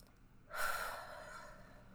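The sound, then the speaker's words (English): A single deep breath drawn in, starting with a sudden airy rush that peaks quickly and then tapers into a softer, fading hiss, heard alone. “So, tapping the chest, taking a deep breath.”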